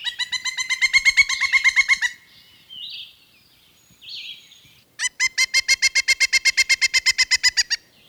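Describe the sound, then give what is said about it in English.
A pileated woodpecker calls loudly before going to roost with a rapid run of ringing, clucking notes. Softer calls follow, then a second long, equally loud series. “A pileated woodpecker calls loudly before going to roost.”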